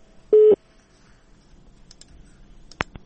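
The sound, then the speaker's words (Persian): A telephone tone sounds after a call-in caller is disconnected: a single short, loud, steady tone burst, followed by quiet line hiss and a couple of sharp clicks near the end. “بله تماسشان قطع شد.”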